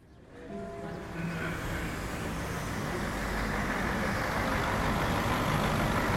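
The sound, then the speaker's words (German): A long-distance coach bus rolls into its bay. Its broad engine and road rumble swell over the first second, then hold at an even, steady level to the end. “Ein Fernbus rollt in die Haltebox.”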